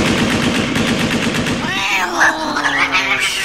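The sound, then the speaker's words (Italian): Rapid automatic bursts from an AK-15 rifle fired into the air rattle loudly for a couple of seconds, then stop and give way to wavering, whining tonal sounds. “Tieni, spara 200 colpi in aria con questo AK-15.”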